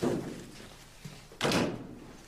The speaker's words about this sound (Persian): درو ببندی